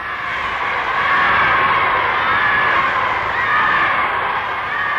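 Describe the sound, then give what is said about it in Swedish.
A crowd cheers and shouts as Hitler arrives at the Bayreuth Festspielhaus. Many voices merge into a dense, continuous roar held at a steady high level throughout. “Publiken hyllade sin hjälte.”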